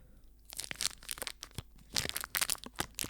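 A Cadbury Marvellous Creations bar with jelly, popping candy and beanies is cracked apart, giving faint crisp snaps mixed with crinkling wrapper rustles in a few irregular bursts.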